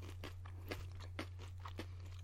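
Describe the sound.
Crunching of a cracker topped with thickly sliced, pre-sliced cheese being chewed: several rhythmic crunches, roughly evenly spaced and fairly quiet, over a steady low hum.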